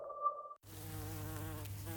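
Bees buzz during a neighbourhood bee count for a nature project, a steady, low droning hum rich in overtones. It follows a short, higher tonal whine and a moment of silence.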